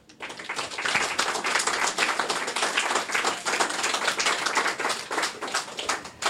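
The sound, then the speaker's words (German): Audience applause at a weekend event, a dense, steady patter of many hands clapping, fairly quiet and continuous throughout without talk. “Aber erstmal großen Applaus.”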